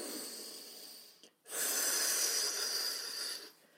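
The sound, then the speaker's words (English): Someone takes a deep breath, a soft airy inhale, then a brief pause before a longer, steady breathy release. It is faint and heard alone, with no talking. “a deep breath, please.”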